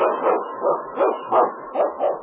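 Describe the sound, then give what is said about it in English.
A lead sled dog barks in a steady, rhythmic string of many muffled, narrow-toned barks at a fairly loud level, with no talk. “It came, the swiftest and strongest lead dog of the North Country”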